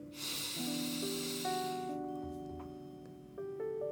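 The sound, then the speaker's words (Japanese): A slow breath drawn in through the nose, a soft airy hiss lasting about two seconds, over faint sustained tones that shift gently in pitch. “口から息を吐く鼻から息を吸い込んで”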